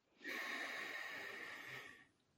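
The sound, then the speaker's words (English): A deep breath drawn in during a breathing exercise: one long, steady, airy intake lasting nearly two seconds, loud and even, then fading away, with no talking. “Deep breath in.”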